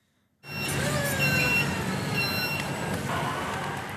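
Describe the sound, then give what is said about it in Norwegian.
Trucks weave among pallet jacks and pallets of fish at a fish wholesale centre in Oslo. A steady engine rumble starts abruptly, with thin, high beeping tones recurring above it. “På fiskesentralen i Oslo kjører trøkkene slalåm mellom jekketraller og paller med fisk.”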